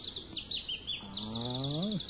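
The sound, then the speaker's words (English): A male songbird sings in a rapid run of high, thin chirps and trills that continue throughout, with a lower drawn-out tone beneath during the second half. “Listen to the pretty birdie sing. Now, that's a papa birdie.”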